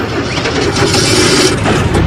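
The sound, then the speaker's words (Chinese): Motorcycle engine starting up and running: a loud, dense, steady roar that lasts the whole clip without a break. “黑木慈开动了摩托车”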